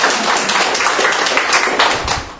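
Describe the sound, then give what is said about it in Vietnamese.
An audience at a Catholic church gathering gives a big round of applause to honour those whose patron is Saint Gregory the Great, loud, dense clapping with crisp individual hand strikes running through the whole stretch. “Xin một tràng pháo tay thật lớn để chúc mừng những người”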